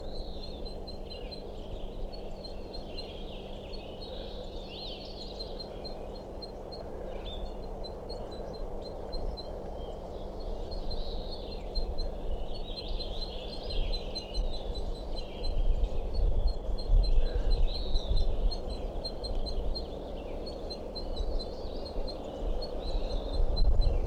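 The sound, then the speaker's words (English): A female crossbill calls from her nest in a tree, giving a long string of high, short chips in steady repetition over a low, constant rumble of background noise. “I'm underneath that tree I think a crossbill is nesting in, and this calling from I think a female crossbill somewhere on a nest continues, and this is a sample.”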